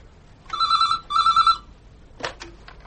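A telephone rings after a number is dialled to a police station: two short electronic ring bursts in quick succession, then a few sharp clicks on the line.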